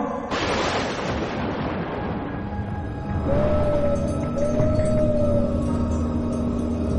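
Thunder rumbles with wind howling as a storm breaks and rain begins: a loud, continuous broad roar throughout, with a thin whistling whine rising out of it in the middle stretch.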